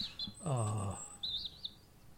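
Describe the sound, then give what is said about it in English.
Birds chirp in short, high tweets, a quick pair near the start and a few more later. A brief, lower, rounded call sounds between them, and everything stays faint. “Yeah, but they're so clean, they don't even make a mess. Well, they don't. Well-behaved they're good birds. They're well-trained.”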